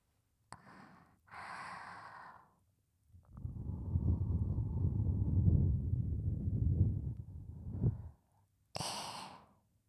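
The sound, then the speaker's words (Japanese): Someone blows air gently to cool a flushed face: one soft, breathy exhale lasting several seconds, framed by shorter breaths and sighs before and after. “まるで湯気が出てるみたい。ほら、落ち着いて。ふうふうしてあげる。”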